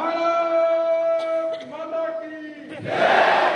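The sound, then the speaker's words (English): A crowd at an All India Anti-Terrorist Front gathering cries out a patriotic slogan in unison, marking Anti-Terrorist Day a few days before Diwali. Sustained voices chant together, then a loud burst of crowd noise comes near the end. “We salute Mother India, the audience cries.”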